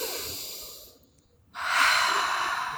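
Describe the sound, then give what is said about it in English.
A deep breath taken during a tapping exercise: a breath drawn in, a brief quiet pause, then a longer, louder, airy breath out that continues to the end. “Deep breath.”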